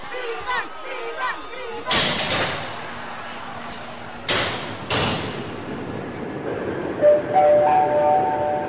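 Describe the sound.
A train starts off on the opening journey of the Dridan line before a crowd of thousands. Brief voices come first, then heavy metallic bangs with hissing bursts, a steady rumble, and a few short tonal notes near the end.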